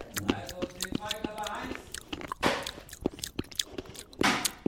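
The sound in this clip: Chewing and biting as someone eats a tasty snack: many wet, crunchy bites and smacks in an uneven rhythm, moderately loud, with a few soft breathy sounds between them.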